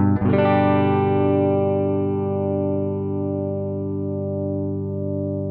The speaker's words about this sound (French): Les deux micros ensemble. Évidemment, toujours le sustain et un micro grave.